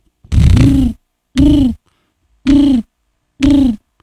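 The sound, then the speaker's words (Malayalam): A human voice imitates a pigeon cooing with four low, hollow coos, evenly spaced and fairly loud, with silence between them. “പ്രാവ്.”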